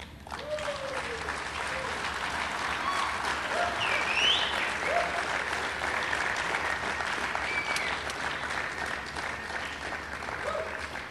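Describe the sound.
Audience applause welcomes the main speaker at an evening gathering: dense, steady clapping that holds at an even loudness for the whole stretch without fading.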